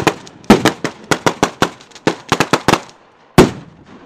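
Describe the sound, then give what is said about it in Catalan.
A string of firecrackers goes off at a town festival: many loud, sharp cracks in a rapid, irregular burst, then a short gap and one final bang. “Sona la traca, eh? Ahí, escoltem.”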